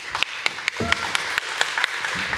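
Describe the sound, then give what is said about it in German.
Light, sparse clapping from an audience welcoming an author, a run of distinct individual claps at a fairly even pace, faint and thin rather than a full ovation. “Einen herzlichen Applaus bitte.”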